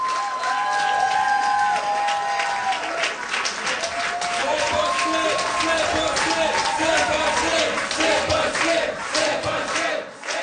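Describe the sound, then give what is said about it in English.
Campaign supporters cheer at a party headquarters in Quebec City during a provincial election. Loud crowd cheering, shouting and clapping carry on without a break for the whole stretch. “That's the sound of some supporters at their campaign headquarters for Quebec Solidaire in Taschereau in Quebec City.”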